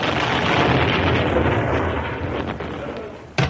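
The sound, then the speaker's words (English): Explosion sound effect in a radio comedy sketch: a loud, broad roaring blast that slowly decays, with a short sharp crack near the end. “Can I blow him up? Oh, please.”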